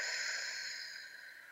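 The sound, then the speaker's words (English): A single long, soft breath is heard as a steady airy hiss that tapers slightly toward the end. “let's take a deep breath together. In through the nose, out through the mouth,”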